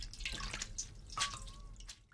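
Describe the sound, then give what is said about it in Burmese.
Water drips and trickles as a hand squeezes boiled mustard greens, giving faint, irregular wet splashes and drips with a brief, thin, higher watery tone in the middle. “နောက်လက်တစ်ဖက်နဲ့ရေတွေကိုညှစ်လိုက်ပါ”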